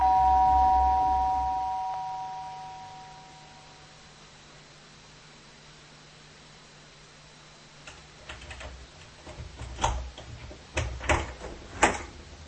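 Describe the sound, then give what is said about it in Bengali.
A doorbell rings with a short electronic chime that lingers and fades over a couple of seconds. After a quiet stretch, a series of sharp clicks and knocks follows. “এসব ভাবতে ভাবতেই calling bell বেজে উঠল।”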